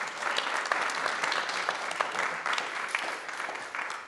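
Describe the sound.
An audience applauds to welcome a speaker at a lecture in Orange County, California. The clapping is dense and steady, with many hands at an even loudness throughout and no voices over it.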